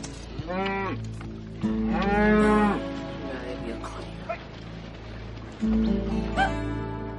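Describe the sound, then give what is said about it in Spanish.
A herd of cows crossing a road moos a few times, each call long and drawn out, rising and falling in pitch over a steady low background hum. “Un rebaño de vacas cruza la carretera.”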